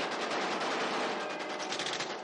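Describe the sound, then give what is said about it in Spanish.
Sustained submachine-gun fire in a 1970 war-film battle, a loud, dense, unbroken rattle of rapid shots that runs the whole length without any voices. “Por fin, Gran Joe sale de su escondite con su metralleta en ristre y dispara sin piedad.”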